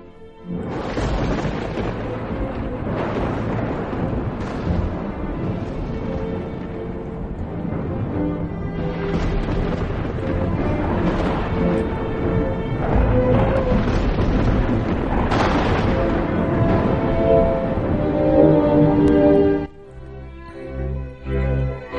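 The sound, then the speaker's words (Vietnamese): Dry thunder breaks out on a hot day with no rain. A deafening, sustained rumble rolls on for about twenty seconds with heavier booming swells, then cuts off abruptly near the end. “trời đang nóng nực như vậy, bỗng nhiên nổ sấm khan, tiếng sấm nghe đinh tai nhức óc”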